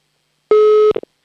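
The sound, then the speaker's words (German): A telephone ringing tone after a number is dialed: one steady, mid-pitched tone lasting under half a second, followed by a few short, faint clicks. “So, hier ist wieder eine Nummer, die wähle ich jetzt und dann hoffe ich, dass bitte jemand abhebt. Oh, Freizeichen haben wir zumindest schon mal.”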